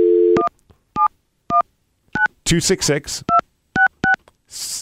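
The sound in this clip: Telephone keypad tones dial a number to a novelty hotline: seven crisp, evenly pitched beeps in short bursts, with a brief stretch of talking between the fourth and fifth tones and a soft hiss at the end.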